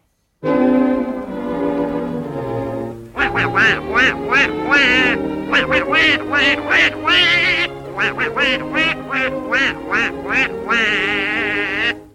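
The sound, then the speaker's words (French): Cartoon duck quacking, a long nasal squawk followed by many rapid, raspy quacks in a jabbering, speech-like rhythm, loud and alone. “Le canard Donald est à l'honneur cette fois-ci.”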